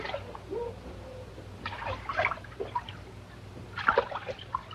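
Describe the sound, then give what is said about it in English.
Water trickles into a floor drain. The faint, irregular flow has small splashes and gurgles that rise now and then over a low, continuous wash. “The water carries Mary's blood to the drain in the floor.”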